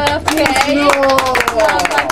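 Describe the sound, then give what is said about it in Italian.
Crowd applause with sharp hand claps, uneven and punchy, while loud voices call out over the clapping throughout. “Io proporrei due tipi di applausi: il primo per Haji Mohamed Swart, vai applauso, sì.”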